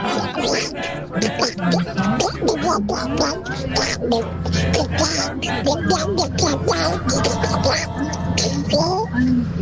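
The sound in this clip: A voice imitating Donald Duck's raspy, quacking speech during an impersonation contest in Arica. The squawky babble runs continuously, loud and unbroken.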